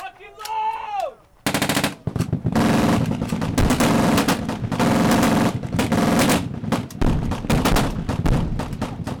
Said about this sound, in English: attended what's billed as the world's largest machine gun shoot and fired off this report. We all know Arizona has a lot of copper in the ground, but over the weekend, a desert canyon near Wickiup was filled full of brass and lead.